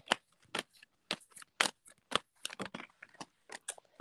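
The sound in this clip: Playing cards are shuffled and drawn, giving many crisp, papery flicks and snaps in an irregular rhythm. Each burst is short and sharp, with no talking.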